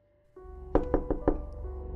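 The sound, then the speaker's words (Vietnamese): Loud knocking on a door: four heavy, evenly spaced blows in quick succession, ringing over a steady low tonal hum. “Trần Thư gõ cửa rầm rầm, dùng hết sức mà gào lớn”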